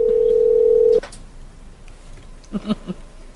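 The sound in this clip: A telephone dial tone holds steady for about a second and then cuts off, followed after a pause by a few short, sharp key-press beeps as numbers are typed into the phone.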